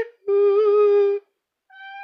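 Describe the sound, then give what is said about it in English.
A cat meows: a long, steady, tonal meow, then a short pause, then a second meow that begins and is cut off at the end, both alone with no talk. “we'll always have meows. Yeah, I got a cat that doesn't like me singing.”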